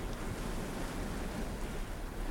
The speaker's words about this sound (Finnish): Aaltojen epäsäännöllinen arvaamaton rytmi lisää oksennuttavaa oloa.